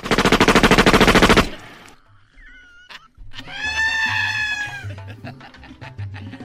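Firing squad gunfire rips out as a loud, rapid string of many shots lasting over a second. A short quiet gap follows, then a rooster crows in a long harmonic call.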